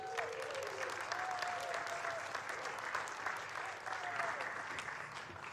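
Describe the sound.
Quiet, steady applause from a church audience welcoming a returning speaker to the pulpit, many hands clapping evenly throughout with no talk over it.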